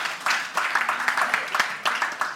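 Audience clapping during a church sermon comes in scattered, uneven bursts of sharp claps that rise and fall in loudness across the short stretch.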